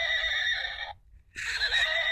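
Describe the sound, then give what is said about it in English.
A cheap battery-powered toy horse neighs electronically, giving two loud, bright whinnying bursts separated by a short silent pause. “I don't know if the mics are picking that up, but Bartholomew is galloping.”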